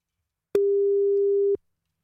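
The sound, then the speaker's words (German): An outgoing telephone call's ringing tone: a single steady, mid-pitched electronic beep lasting about one second, alone in silence. “Und jetzt wollen wir die Mama mal anrufen und gucken.”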